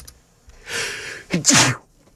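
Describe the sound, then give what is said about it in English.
A single sneeze from a person: a drawn-out breathy intake builds first, then a sharp, loud two-part burst, followed by quiet, with no talking. “Sorry for sneezing.”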